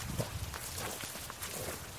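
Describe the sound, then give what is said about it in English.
Faint footsteps of people walking outside toward the woods, a soft, steady rhythm of light steps with no talk. “After our little jam session, we took a walk outside toward the woods.”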